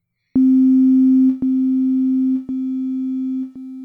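A steady synthesized tone is played at four set volume levels, four back-to-back held segments, each a step quieter than the one before, with a small click at each change.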